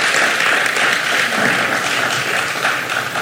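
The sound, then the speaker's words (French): Audience applause at a live performance event: loud, sustained crowd clapping with a thick, even texture that swells slightly near the middle and runs for the whole clip. “applaudissements, s'il vous plaît”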